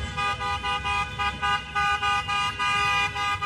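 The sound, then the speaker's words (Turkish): Car horns honk from a convoy of fans in Los Angeles welcoming Turkey's national football team: many short, loud, tonal toots in a steady pulsing series over a low rumble of traffic. “D grubundaki son maçında ev sahibi Amerika Birleşik Devletleri ile karşılaşacak Ay Yıldızlılar araç konvoyuyla karşılandı.”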